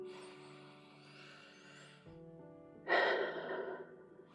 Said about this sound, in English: Let's embrace it by taking 3 deep breaths.